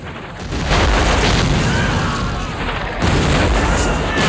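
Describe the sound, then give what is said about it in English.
Heavy artillery guns firing on a fort's defenses, loud booms that break into a continuous rumbling roar, with two sharp surges in loudness. “soldiers are sent flying as more artillery is unleashed on the fort's defenses. Huge clouds of smoke billow out from the muzzles of the heavy guns as they spew out death and destruction.”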